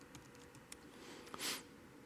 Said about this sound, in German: Dann gebe ich hier einfach meinen Usernamen an oder meine E-Mail-Adresse.